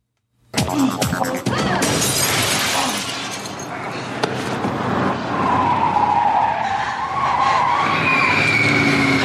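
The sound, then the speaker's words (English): Car tyres screech as a car skids to a stop. A sudden loud onset leads into a harsh, sustained squeal with wavering tonal whines that hold for several seconds. “points it at the driver of the car that screeches to a stop in front of her”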